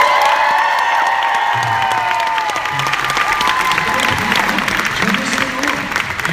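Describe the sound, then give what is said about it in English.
Loud audience applause and cheering with whoops as guests are introduced at a panel, dense clapping continuing unbroken through the whole stretch. “All right, put your hands together for Michael Rosenbaum, John Heder!”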